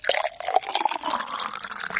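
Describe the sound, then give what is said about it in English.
Liquid poured into drinking glasses, a continuous splashing, gurgling trickle lasting about two seconds with small uneven surges and no voices. “Again, he filled their glasses.”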